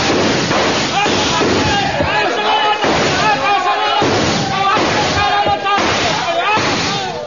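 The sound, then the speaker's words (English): Gunfire crackles as a volley from soldiers firing on command during an attack, with dense, overlapping bursts that repeat many times over a loud, continuous roar. “Your stations, men! Your station! Ready? Aim! Fire!”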